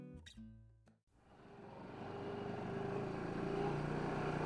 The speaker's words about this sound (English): I'm riding shotgun in an off roading vehicle. It looks like a souped up golf cart made for steep dirt trails instead of putting greens.